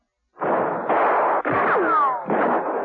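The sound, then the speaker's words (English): Gunshots in a bullring, bullets striking the hot sand. Several loud, harsh bursts follow one another quickly, with high whining ricochets sweeping downward in the middle. “the bullets splattering themselves around his feet”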